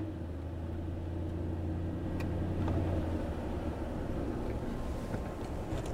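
A car sits stopped in a traffic jam with its engine idling as a low, steady rumble. The sound is faint and even throughout, with no voices.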